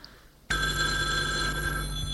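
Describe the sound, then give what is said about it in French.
A telephone bell rings loudly and steadily, starting abruptly after a short quiet moment and continuing unbroken to the end without any talk. “Le téléphone a sonné.”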